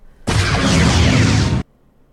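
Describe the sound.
Torpedoes fired and exploding: one loud, dense, roaring burst lasting about a second and a half that starts sharply and cuts off abruptly.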